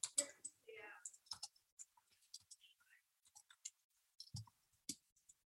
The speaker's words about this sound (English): and Sara and I have a shared document here online so we can both see it as I write it.